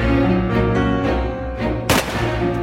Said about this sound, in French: Il a ouvert son sac, a sorti une calache, et avant que personne ne puisse réagir, il a tiré.